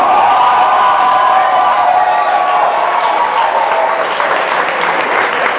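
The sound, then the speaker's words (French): Congregation cheering and applauding in acclaim during a church service: a loud, dense wash of clapping and crowd voices that continues unbroken for the whole clip. “Maintenant, acclame le Saint-Esprit.”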